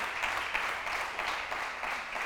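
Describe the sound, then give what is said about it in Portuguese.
A church audience applauds, a dense, even patter of many hands clapping together that stays steady and fairly loud without a break. “Dá um aplauso a Jesus.”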